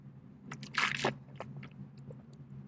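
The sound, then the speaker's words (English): Someone eats food and sips coffee, producing faint, scattered chewing and crunchy clicks over a low background hum. A slightly louder cluster of mouth sounds comes near the middle. “So let me just wash down that delicious food with coffee.”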